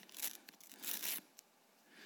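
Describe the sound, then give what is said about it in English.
A paper ticket being ripped down the side: two quick, faint tearing rips, the second slightly longer, with a small crinkle afterward and nothing else. “And he started to rip his ticket right there. Started ripping it down the side like that.”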